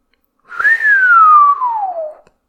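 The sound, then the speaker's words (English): A long, low human whistle: a single sustained note that lifts briefly at the start, then slides steadily downward before cutting off, alone against silence. “Zhang Chang let out a long, low whistle.”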